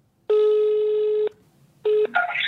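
Telephone call ringing out on the line: one loud, steady tone lasting about a second, a short gap, then a brief second tone cut off as other sound takes over.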